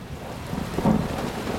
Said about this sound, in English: it starts to rain